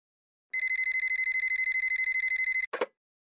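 A telephone rings for an incoming call with a rapid, even electronic warble lasting about two seconds, then a short click as the line is picked up.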